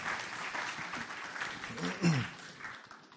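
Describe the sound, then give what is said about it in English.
Church audience applause welcoming a speaker to the front, fairly soft and uneven clapping that rises briefly near the middle, with a voice heard faintly alongside it. “Can we just put our hands together and welcome Mark?”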